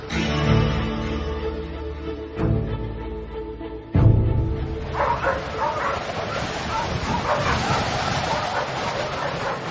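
Dogs bark, yip and whimper in rough weather, with a couple of sharper, louder barks standing out over a constant noisy wash.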